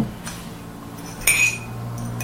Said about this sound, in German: Ich muss den Kaffee umrühren, ich meine, das geht nicht anders.